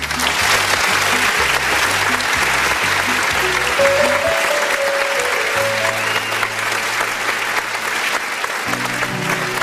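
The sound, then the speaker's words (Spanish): A crowd gives strong applause for a singer at a birthday celebration: steady, loud clapping for the full length, with a pulsing low music beat underneath. “Vamos a darle un fuerte aplauso.”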